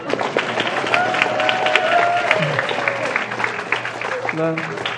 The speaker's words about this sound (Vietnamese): Hoan hô. Thành ra là nên hoan hô tinh thần người Maryland.